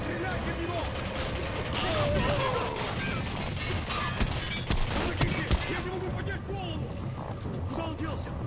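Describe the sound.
Grenade explosions and gunfire fill a video game battle with a dense, continuous barrage of noisy shots and blasts. A few sharper cracks stand out partway through, and the din stays steady to the end.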